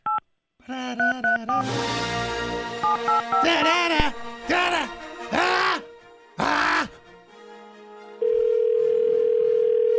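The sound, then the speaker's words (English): Telephone dialing tones ring out while a call is placed: a run of short electronic beeps, then louder voice-like tonal bursts, ending in a long, steady, unbroken tone. “Let me call him. This is really good. Some dialing music.”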